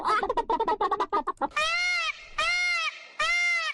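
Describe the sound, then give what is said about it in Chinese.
Peacock calls: three loud, high, drawn-out nasal wails in steady succession with short pauses between them, after a brief stretch of busier sound. “这是什么声音呢？这是孔雀的叫声，这是孔雀的叫声。”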